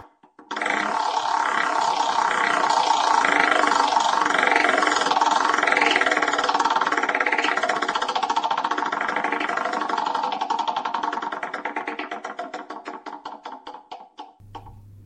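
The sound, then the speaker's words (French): A prize wheel spins, giving rapid ticking clicks over a loud droning tone. The clicks gradually space out and slow until the wheel stops near the end. “Nous allons faire tourner la roue afin de déterminer le pilier à propos duquel nous allons discuter ensemble aujourd'hui.”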